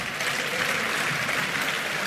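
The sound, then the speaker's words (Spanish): Deputies of the French National Assembly applauding the passage of an anti-terrorism law, a sustained, dense sheet of clapping that stays even and unbroken throughout. “Así aplaudían los diputados de la Asamblea Nacional de Francia la aprobación de la ley antiterrorista por 415 votos a favor y 127 en contra, con 19 abstenciones.”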